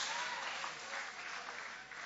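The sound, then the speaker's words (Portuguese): A church audience applauds during a worship service. The clapping is faint but steady and carries on without a break. “Aplaude a Ele, aleluia! Glória a Deus!”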